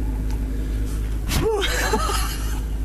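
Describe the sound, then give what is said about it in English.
A car engine idles while warming up in freezing cold, a steady low drone that runs unchanged through the whole clip, with a short breathy noise partway through. “I'm warming up my car now. The temperature is very low.”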